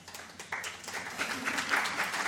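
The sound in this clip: Audience applause at a panel discussion event: a dense, steady wash of clapping that jumps up in strength about a fifth of the way in and swells slightly toward the end, with no voices.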